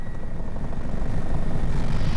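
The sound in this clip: An emergency medical rescue helicopter drones loudly, its engine and rotor rumbling low with a rapid, rhythmic blade chop pulsing throughout; no voices.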